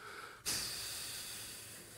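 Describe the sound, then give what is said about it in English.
A voice imitates the angry snort of an upset father breathing hard through his nose: one sudden nasal burst that becomes a long, steady, airy exhale, fairly faint. “Just breathe through his nose.”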